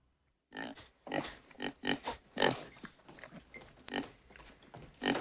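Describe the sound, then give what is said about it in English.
A sow snorts and sniffs as it trots in, a run of many short, rough, breathy bursts of uneven loudness, with no talk. “The door opens and a pig trots in.”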